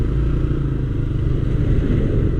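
A scooter rides forward in traffic at a road junction. Its engine gives a steady, loud, low rumbling drone that stays even throughout.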